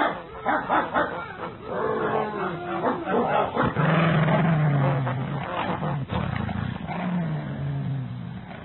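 Dogs on a farm bark, yip and whimper in a frantic, unbroken clamor, with deep growling snarls mixed in. The noise stays loud and dense throughout.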